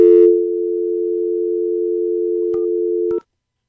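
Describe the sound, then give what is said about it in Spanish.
A telephone tone sounds on a call that reached a busy line: one steady, unbroken mid-pitched tone lasting about three seconds. Two faint clicks come near its end before it cuts off to silence. “No, suena ocupado, así es que bueno, vamos con el que sigue.”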